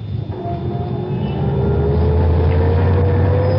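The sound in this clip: A chauffeur-driven Rolls-Royce pulls away from the curb in Paris traffic. Its engine rumble swells steadily, with a thin whine that rises slowly in pitch and holds at a constant level.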